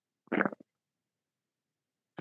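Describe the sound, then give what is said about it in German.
A short fart, a brief low buzzing burst of about a third of a second with a small trailing puff, followed by silence. “hast du das gehört? Das ist hier der Bodi, jetzt pupst du in die Kamera.”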